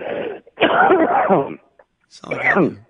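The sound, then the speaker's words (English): Voiced coughing and throat clearing after water went down the wrong pipe: three harsh, loud bursts with the middle one the longest. “Wow, that went down the wrong pipe. Sorry.”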